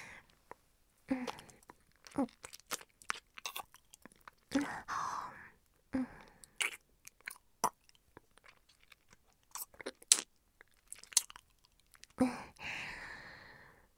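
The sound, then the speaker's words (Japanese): Close, wet kissing sounds: many short smacks and lip clicks arrive in irregular bursts separated by near-silent pauses, each one quiet and intimate. “じゃあ、キスしちゃうね。”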